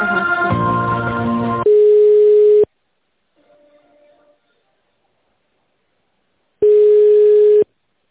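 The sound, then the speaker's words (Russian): Telephone line tones sound as an office call is transferred to an internal extension. A buzzy stretch of mixed tones leads into a loud, steady beep. After a near-silent pause with a faint blip, an identical beep follows. “Переключаю руководитель тендерного отдела Виталий Добавыч на 105.”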